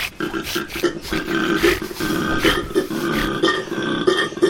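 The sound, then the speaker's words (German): A person imitates a koala's grunt with a run of deep, guttural, belch-like grunts, rough and snorting like a pig burping, repeated in uneven pulses of varying loudness. “Bisschen wie wenn ein Schwein rülpst. So stelle ich es mir vor. Also wir haben schon mal Koala-Grunzen.”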